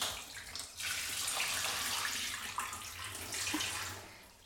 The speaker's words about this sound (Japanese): 泡、流しちゃいますね。お湯、おかけします。